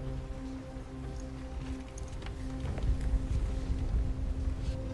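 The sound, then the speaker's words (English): Rain pouring down outside at night, a steady, dense hiss with a low rumble that grows somewhat louder partway through and continues to the end. “rain continues to pour outside”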